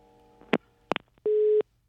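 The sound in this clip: Telephone busy signal after a dropped call: a few sharp clicks, then a single steady mid-pitched beep tone held for about a third of a second before it cuts off.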